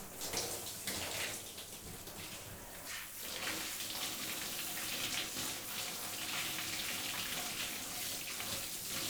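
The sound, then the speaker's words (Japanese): Lukewarm water running to rinse hair after a cooling shampoo: a steady, broad splashing rush that carries on throughout with only a brief dip early on. “冷感シャンプーの後ってお湯が熱く感じやすいみたいだから、いつもより少しぬるめのお湯で流してるんです。”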